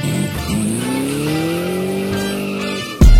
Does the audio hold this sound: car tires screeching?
yes